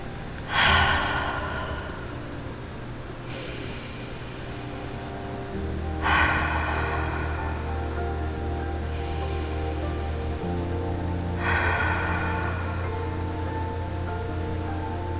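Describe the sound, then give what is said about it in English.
Slow, deep cleansing breaths in and out during a meditation practice, several long airy breaths at an even pace over soft, sustained background music. “To start this practice, we're going to take some deep cleansing breaths.”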